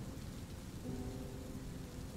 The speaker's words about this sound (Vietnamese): Người ta mới vừa xuống giống được có mấy ngày à, mà bây giờ mưa lớn vậy.